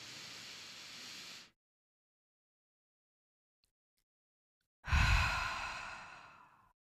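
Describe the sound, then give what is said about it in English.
A person takes a deep breath in, holds it in silence for about three seconds, then lets it out in a long, airy exhale that slowly fades. “We're going to breathe, hold it for 3 seconds, and then we're going to let it out.”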